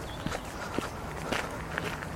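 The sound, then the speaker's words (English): Footsteps walking along the Worcester and Birmingham Canal towpath toward Birmingham City Centre, a steady, even pace of about four clear steps over light outdoor background noise. “So we're currently walking down the Worcester and Birmingham Canal towards Birmingham City Centre.”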